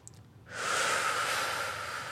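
A deliberate breath during a breathing exercise: after a brief quiet moment, a sudden, steady, airy hiss of breath begins and holds evenly for well over a second, unvoiced.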